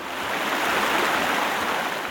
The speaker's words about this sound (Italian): Ciao, io sono il torrente, sono fatto di acqua, somiglio a un fiume, ma sono più piccolo.